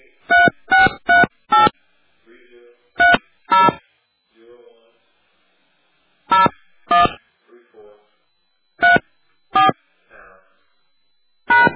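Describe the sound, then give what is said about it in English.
Telephone keypad tones sound as a personal ID number is entered: short, sharp beeps in quick pairs and clusters, with quiet speech murmuring in the gaps between them. “Please enter your personal ID number, followed by the pound sign.”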